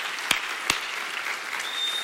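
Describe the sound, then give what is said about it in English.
A church audience claps during a service in a steady, even patter of applause, fairly soft, with a couple of sharper single claps standing out near the start. “come on, let's clap to Jesus for his goodness to us”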